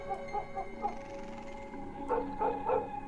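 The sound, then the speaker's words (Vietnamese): A dog barks frantically on a porch, sensing danger. Sharp, yapping barks come in two short clusters with a brief pause between them, over a steady tonal backdrop. “Con Mích đứng ở ngoài hiên, nó như cũng nhận biết tình thế nguy hiểm mà nó sủa lên ghê lắm, như điên như cuồng vậy.”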